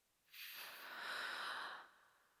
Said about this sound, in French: je vais t'inviter à prendre une grande inspiration, peu importe où tu es et ce que tu fais.